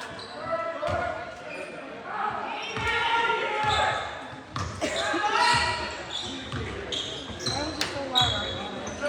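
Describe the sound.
A basketball is dribbled on a court during a game, several sharp bounces spaced irregularly beneath continuous excited talk.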